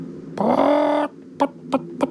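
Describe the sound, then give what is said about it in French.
A large hen clucks: one drawn-out, harmonic squawk lasting under a second, followed by three short, sharp clucks spaced evenly apart, loud and alone. “mais oui, c'est une poule, et une grosse en plus.”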